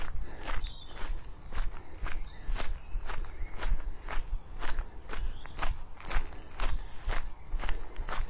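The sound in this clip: Footsteps of a person walking back down a hill, many steady and evenly paced crisp steps about twice a second, continuing without pause throughout.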